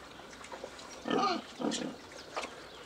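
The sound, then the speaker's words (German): Soft, low grunts come from fattening pigs kept outdoors on a Spreewald farm. A few short grunts sound faintly in a quiet stretch, with no talk. “Die 10 Schweine mästet der Spreewaldbauer für den Eigenbedarf und auf Bestellung.”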